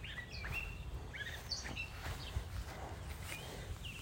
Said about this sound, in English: Obviously, you hear the birds chirping.